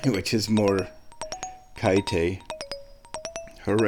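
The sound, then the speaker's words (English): Washing machine end-of-cycle chime: a quick run of bright, high electronic beeps and pings, with people talking before and after the tones. “Well, that's the sound of the washing machine being done.”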